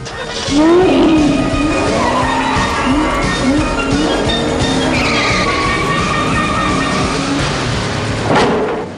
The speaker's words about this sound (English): turns the key and starts the engine.